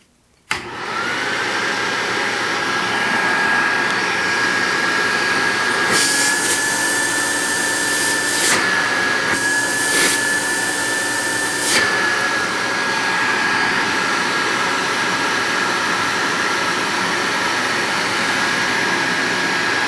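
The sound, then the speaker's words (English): An Electrolux 1205 vacuum cleaner, made between 1972 and 1974, switches on abruptly and runs with a steady, loud whooshing motor roar and a high, even whine that holds for much of the run. “This is the Electrolux 1205. This was made, again, between like 1972 and 1974. Here we go.”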